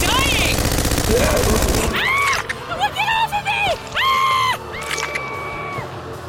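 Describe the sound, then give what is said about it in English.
Gunfire aimed at attacking creatures, a dense, loud burst of rapid shots lasting about two seconds, then high wailing and whooping cries. “There's more of them? Well, shoot them, you idiot. Keep shooting.”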